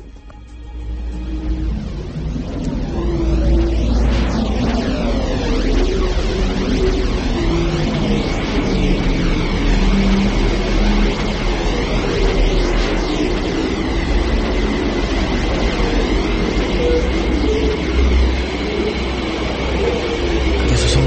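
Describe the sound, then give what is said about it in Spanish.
Eerie electromagnetic vibrations of the Earth recorded by space probes such as Voyager: a loud, steady droning hum with whistling tones that sweep up and down throughout, swelling in after a quieter opening. “la Tierra tiene un sonido, sí, que parece que no somos capaces de percibirlo, igual que la vibración, igual que tantas, muchas otras cosas, así es como suena la Tierra, escuchad.”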